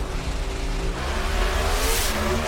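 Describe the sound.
Two NHRA Pro Stock drag racing cars launching in a final round at the Winter Nationals: a loud, steady engine roar with deep low rumble and broad hiss that swells slightly toward the end.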